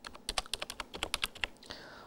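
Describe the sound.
Quiet typing on a computer keyboard while entering text into a database form field, many light, crisp keystrokes in an uneven, quick rhythm, with a short pause before the last few taps.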